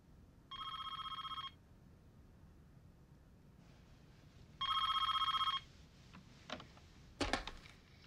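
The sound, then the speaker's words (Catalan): A telephone rings twice beside the president's bed at the White House at three in the morning. Each ring is a bright, rapidly trilling electronic burst with a pause between them, followed by a few faint clicks and rustles. “La trucada que el president rep al llit ve del Pentàgon.”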